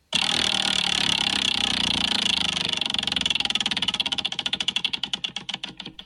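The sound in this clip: A prize wheel spins with a dense rattle of clicks that gradually spread out and slow as the wheel loses speed, each tick becoming more distinct toward the end; no one talks.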